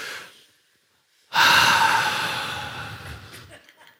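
An audience takes a deep breath and exhales together in one loud, dramatic rush of air. The breathy whoosh starts abruptly after a brief quiet and slowly fades away over about two seconds.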